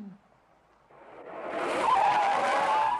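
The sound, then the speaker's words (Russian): A car brakes to a stop at a traffic light, tires squealing in a loud, rising screech that swells out of a low rumble and holds strong through to the end. “На светофоре рядом останавливается машина с водителем, двойником шофера Горбункова”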